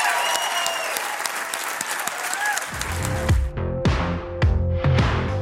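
A church audience applauds to celebrate people newly welcomed into the faith. The clapping is loud and sustained from start to finish.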